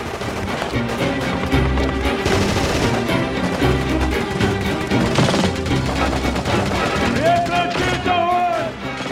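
Gunfire in a firefight: dense, loud bursts of rapid automatic fire that go on almost without a break from start to end.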